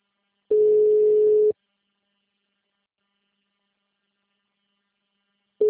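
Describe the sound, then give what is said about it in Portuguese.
A telephone line tone pulses: one steady buzzing tone of about a second, then a long stretch of silence before the next tone starts at the very end. “Por favor, aguarde. Todas as linhas estão ocupadas no momento. Por favor, tente mais tarde.”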